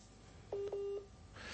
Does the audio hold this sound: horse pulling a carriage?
no